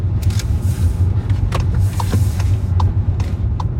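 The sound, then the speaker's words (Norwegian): A car driving in and pulling up, with a steady low engine and road rumble at even loudness and a few faint sharp clicks scattered across it. “Og da skal jeg kjøre inn rett her borte.”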